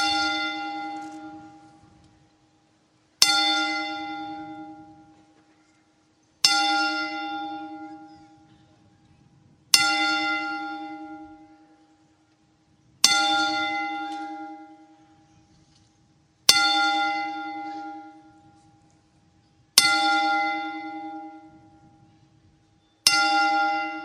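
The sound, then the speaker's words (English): A bell tolled in memorial sounds eight slow, evenly spaced strikes about three seconds apart. Each one is a loud, resonant clang that rings on and fades before the next, with no talking over it. “we will toll the bell 10 times to honor the memory of John Huber.”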